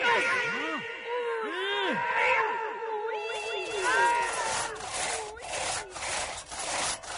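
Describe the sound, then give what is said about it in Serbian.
A saw cuts through the wood of a bed at night, making many loud rasping back-and-forth strokes. Squealing, wavering pitch sweeps run through the strokes, and the sawing continues without a break. “Noća se na Zvezdari čula testera.”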